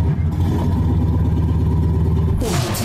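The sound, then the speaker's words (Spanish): A car engine, started with a key, runs and revs with a steady, low, throbbing rumble that turns brighter and rougher near the end. “Gira la llave y enciende el motor.”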